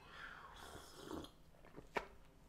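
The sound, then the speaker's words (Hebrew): Someone sips masala chai tea with faint slurping and swallowing, a soft drawn-out slurp followed later by a brief sharp gulp, all quiet and alone. “צ'ירס. אני שותה פה צ'אי מסאלה, משובח ביותר.”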